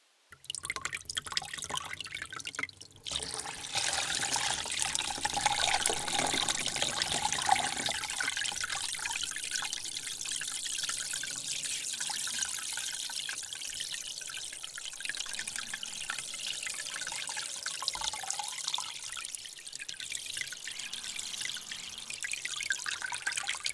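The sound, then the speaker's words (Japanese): Warm water is poured slowly over hair to wet it before shampooing, making a soft, continuous hissing trickle that runs for the whole stretch with one short break near the start. “ゆっくりとお湯をかけて髪を濡らしますね。”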